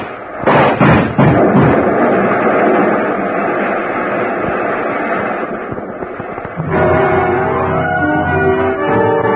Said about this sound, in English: Blast of powder and gasoline, and she moved back toward the other one.